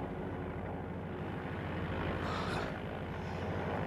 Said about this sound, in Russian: А мы, кажется, взлетели.